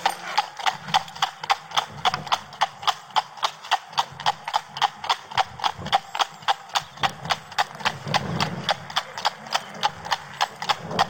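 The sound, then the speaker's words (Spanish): Hooves clip-clop in a quick, steady, even rhythm as a white-maned horse and a light-footed mare race, with many sharp beats continuing throughout at a constant pace. “Corriendo una carrera, un caballo de cris blanca y una yegua muy ligera.”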